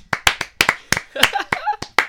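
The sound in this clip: Hand claps in a quick series of about a dozen sharp, irregularly spaced strikes, with a brief voice sounding between them midway.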